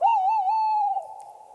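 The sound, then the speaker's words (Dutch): Male tawny owl hooting at night: one long, tremulous hoot that holds steady with a slight wavering quality, then fades and thins out after about a second. “dit is een mannetje bosuil, toch? Ja, dit is een mannetje bosuil.”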